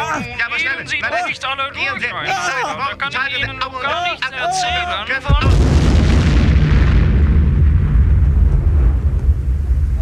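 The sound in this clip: A bomb explodes in a comedy sketch: voices talk over a busy background, then a sudden loud, booming blast turns into a deep, sustained roaring rumble that lasts to the end.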